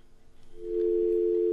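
A telephone line tone sounds as a call fails to connect: after a faint, uneven start, a low, steady continuous tone swells in and holds level to the end, with no voices.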